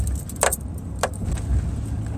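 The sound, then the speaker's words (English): A car driving onto gravel: a steady low engine and road rumble with a couple of brief, bright, crunchy bursts standing out above it. “I'm going to hit the gravel here, so it's going to go a little bit louder.”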